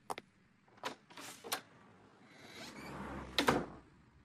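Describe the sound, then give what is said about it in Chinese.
A heavy door is slammed shut: a few faint knocks and scrapes, then a louder, solid bang near the end, all quiet and without voices. “随着重重的关门声，曾泽生的心不觉被震了一下。”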